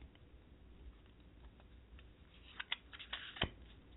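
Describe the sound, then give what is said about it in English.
Tarot cards shuffled and drawn for an intuitive reading: a faint, soft patter of card handling that builds into a few sharper clicks and snaps near the end. “I'm going to go ahead and pull some cards for you.”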